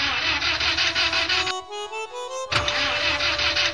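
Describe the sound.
A car engine cranking but failing to start after the vehicle stalls and its electrical system fails: rough, churning starter noise, a brief steady whine in the middle, then the churning resumes.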